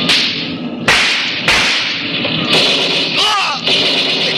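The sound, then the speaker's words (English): Tommy gun fire as a sound effect in a radio drama car chase, heard as loud, dense crackling bursts of rapid shots, with several abrupt surges and breaks in the barrage and no voices. “Hey, they're shooting at us. Tommy guns.”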